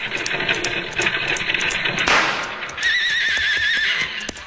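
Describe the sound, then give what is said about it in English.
A single sharp rifle shot cracks out during a roadside ambush on a lumber wagon. A horse whinnies shrilly just after it, with hoofbeats and rustling in the background. “Nice shooting, Roscoe.”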